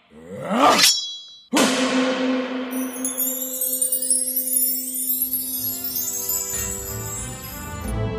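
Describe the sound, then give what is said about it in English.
A shimmering magical swell gives way to a bright metallic clang as a sword appears by magic during a pirate duel in Neverland. The ringing tone sustains for several seconds while glittering high chimes sparkle above it. “What the devil is that? Looks like I have a sword now too, Hook.”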